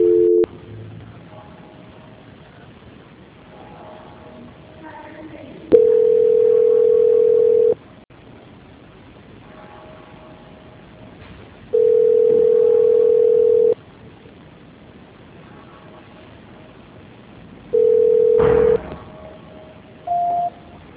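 Telephone line tone during a call transfer: a steady mid-pitched tone in long beeps of about two seconds, repeating after several seconds of faint line hiss, with a few shorter beeps at the start and end.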